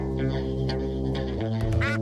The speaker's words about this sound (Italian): Ecco, è arrivata tardi l'oca.